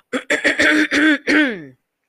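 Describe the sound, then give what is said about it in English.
A voice imitates a storybook character's impressive cough, with a series of voiced, throat-clearing bursts that end in a longer, drawn-out tone falling in pitch. “While he was looking, Eeyore coughed in an impressive way and began to speak.”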